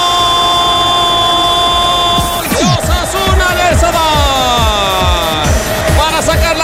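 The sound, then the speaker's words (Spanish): Football crowd in a stadium whistling at its own team during a Primera Federación match: a dense, shrill mass of whistles with swooping, wavering tones over a steady roar of the crowd, sustained and loud throughout. “Empezaban los pitos del público a su propio equipo, por eso ni siquiera lo celebra.”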